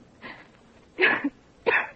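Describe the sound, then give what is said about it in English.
A woman gives a little cough: a faint breathy hack, then two sharper, louder coughs, all fairly quiet. “No, I'm all right. It's just a little cough.”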